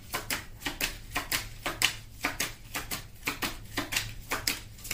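Playing cards are shuffled during a card reading, making many quick, crisp flicks in a steady, even rhythm, fairly faint and without talk.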